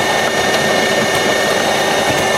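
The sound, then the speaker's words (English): Coffee machine grinding beans, a steady, loud whirring grind that holds evenly throughout without pause, with no voices. “So you're going to press this now, and it's going to. Grind the bean.”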